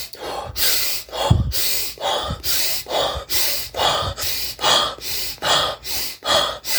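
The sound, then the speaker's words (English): Fast, intense hyperventilation-style breathing from a breathing exercise: many rapid, forceful breaths in a steady, even rhythm, each a loud rushing puff with no talk over it. “intense breathing. There are so many names, but what I basically do, 3 to 5 cycles of 25 to 30 intense breath. That sounds like this.”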